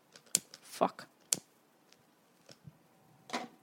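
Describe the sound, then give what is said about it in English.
A grill lighter clicks several times, sharp dry snaps in short bursts with pauses between them, quiet and alone. “Got the mom grill lighter.”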